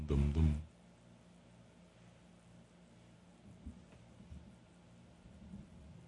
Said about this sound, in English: the thunder comes through in nicely with headphones